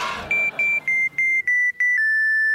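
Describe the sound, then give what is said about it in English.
A beeping distress-call signal from a comedy superhero adventure. It is a rapid run of several high electronic beeps with short gaps, then one sustained tone. “That is what I think it is. The Adventure Cater Distress Call broadcasting on a frequency only I can hear.”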